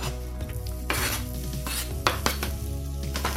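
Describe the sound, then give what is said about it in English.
Onion frying in a pan, with a steady sizzle under intermittent stirring scrapes and light clinks of a utensil against the pan. “this is a great base to the dish, and a lot of the flavour is coming from the onion. So we just want to sort of fry it for a little bit.”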